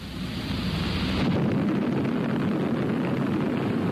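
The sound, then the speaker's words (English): Atomic bomb test explosion, Test Abel: a deep, continuous roaring rumble that fills the whole stretch, its hiss thinning slightly partway while the heavy roar carries on. “All right, let's take a few minutes right now and get acquainted with an A-bomb. Meet Test Abel.”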